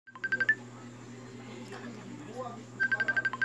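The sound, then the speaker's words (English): A telephone being dialed with tone keypad presses: a quick run of beeps at the start, a quiet gap, then a second rapid run of beeps. “Dial our first listener.”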